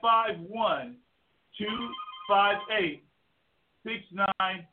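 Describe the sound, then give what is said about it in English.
A telephone ringtone goes off as a few bursts of a tonal, voice-like melody, each separated by a short pause. “Okay, and we got the phone going off over here, and we're going to silence that.”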